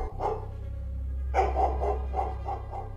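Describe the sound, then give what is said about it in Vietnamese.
A dog barks at night, a ghostly hound in a spooky tale. One sharp bark comes first, then a run of several more over a steady low hum. “Chỉ thấy con chó ma nó sủa lên mấy tiếng. Tiếng chó sủa trong đêm nghe tự nhiên thấy rợn rợn.”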